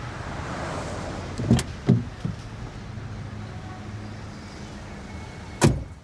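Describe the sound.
Someone getting into a car: a few dull thumps and knocks from the door and seat, then a sharper door slam near the end over a low, steady hum.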